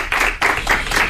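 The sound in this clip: Studio audience clapping for a guest joining a Spanish entertainment show, heard as a few loud, evenly spaced rhythmic bursts of hand claps in quick succession.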